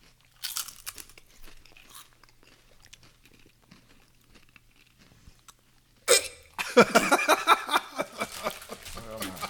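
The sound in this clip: Loud, rapid crunching of Lay's dill pickle flavoured potato chips bursts out in the last few seconds, after a long stretch of faint low-level sound.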